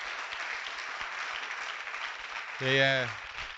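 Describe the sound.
Audience clapping to honour a man for fourteen years of work for the Lord, a steady even wash of applause with a brief voice rising over it near the end.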